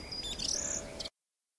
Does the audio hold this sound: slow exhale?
no